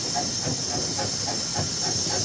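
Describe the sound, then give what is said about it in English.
Steam train running, its connecting rod turning with the wheels: a loud, steady hiss of steam over a regular rhythmic chuffing pulse, about two beats per second. “The train's connecting rod moves round with the wheels.”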